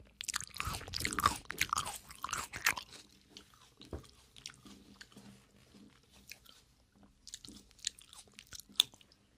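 Someone eats melon with wet, crisp bites and crunching at first, then settles into quieter, irregular chewing with occasional louder crunches and juicy mouth sounds.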